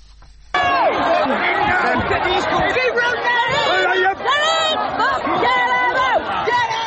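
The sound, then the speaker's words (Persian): Rioters attacking a migrant hotel in Britain make a loud, dense crowd roar of overlapping shouts and chatter. The roar starts abruptly and carries on steadily to the end. “این صدای حمله کنندگان به یک هتل مخصوص مهاجران در بریتانیا است.”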